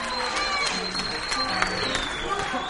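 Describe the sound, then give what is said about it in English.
Applause from a crowd, a dense and steady patter of clapping at an even loudness with a thin whistle-like tone riding over it, mixed with crowd noise and voices throughout. “He took his applause just like on the show.”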